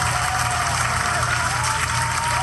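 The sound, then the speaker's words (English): Crowd applause played as a cue, a thick, unbroken roar of clapping and crowd noise that stays level throughout. “Wait. My applause.”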